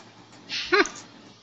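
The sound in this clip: Dogs squabbling over a bone under a desk: one short, fairly faint vocal outburst against a quiet background.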